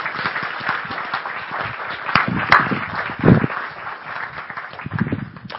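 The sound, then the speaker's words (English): Applause from a church audience welcoming a missionary couple who serve in Togo: dense, steady clapping throughout, with a few sharper claps standing out. “please put your hands together and let's welcome Garen and Susan Harris”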